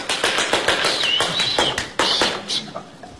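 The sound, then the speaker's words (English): Hand clapping from people at the final of a 1950 ballroom dancing championship: a scattering of sharp, separate claps at an uneven rhythm, joined midway by a high whistle-like tone, tapering off toward the end. “people clap their hands and make a lot of noise”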